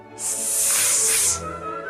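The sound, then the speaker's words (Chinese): A voice imitates a snake's hiss with one loud, sustained, airy hiss lasting about a second before it cuts off. “接着他发出了蛇嘶嘶的声音和狮子的吼叫声”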